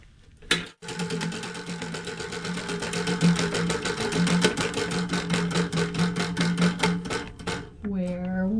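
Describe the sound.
A prize wheel spins at a live call-in event, giving many rapid, even ratchet clicks over a low hum for several seconds before stopping. A voice comes in briefly at the end.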